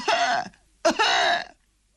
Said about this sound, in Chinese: 骑在驴上还直咳嗽